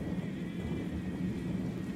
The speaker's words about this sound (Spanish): Un viento huracanado me sorprendió súbitamente, y los truenos y relámpagos se repetían por doquier